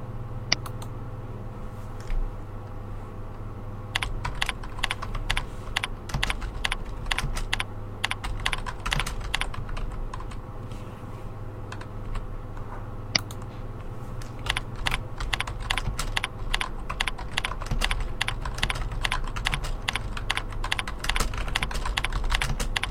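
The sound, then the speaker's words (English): Someone types a message on a computer keyboard over a low, steady hum. Sparse keystrokes give way to rapid, irregular bursts of clicking, with a brief pause midway before the typing picks up again. “Lastly, going down to the second section, which is Compose Message, give the message a subject and type your message in the body.”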